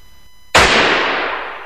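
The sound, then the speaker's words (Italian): A single loud pistol gunshot rings out, a sharp sudden crack followed by a long, slowly fading tail, with nothing else around it. “La pistola m'hai puntato, eh? Ed un colpo m'hai sparato. Ah sì? Spara.”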